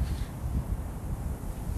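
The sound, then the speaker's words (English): Wind blows across the microphone as a low, fairly quiet rumbling rush with small gusty fluctuations, steady for about two seconds with no talk. “Oh my god, it's windy. Wind.”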